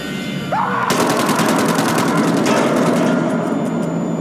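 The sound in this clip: Automatic gunfire rattles in one fast, unbroken burst of many rapid, evenly spaced shots. It stays loud and steady until the end.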